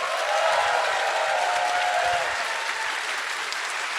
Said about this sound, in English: Clap your hands for a brave child.